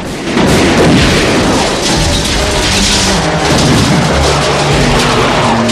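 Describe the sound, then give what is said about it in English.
A fuel tank explodes during a shootout with a pump-action shotgun and horses by stables, a loud, dense booming roar with heavy thuds that fills the whole stretch without pause. “A fuel tank explodes behind him.”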